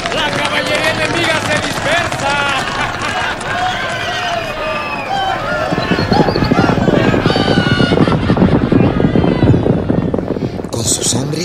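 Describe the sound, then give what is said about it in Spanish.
Horses gallop in a cavalry charge during a revolutionary battle led by Villa, a dense, continuous rumble of hooves mixed with shouting voices. The charge thickens and grows heavier about halfway through, then holds steady and loud to the end. “Villa cargó a caballo y los colorados huyeron.”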